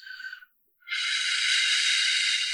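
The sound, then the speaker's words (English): Breath is blown through pursed lips as if cooling soup: a short, airy hiss, a brief silence, then a longer, steady breathy hiss that holds to the end. “I would recommend you do the cooling the soup breath.”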